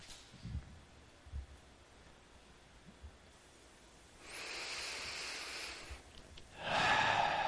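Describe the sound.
A slow, deep breath in quiet surroundings: two soft airy breath sounds, the second louder, with a few faint low thumps before them.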